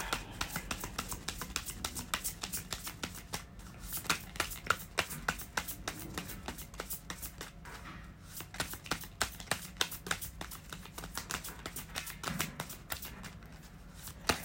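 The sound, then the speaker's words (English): A tarot deck being shuffled and cards pulled during a card reading: many rapid, crisp riffles and snaps run almost continuously, with brief pauses and no talking. “I'm gonna pull one last card for it.”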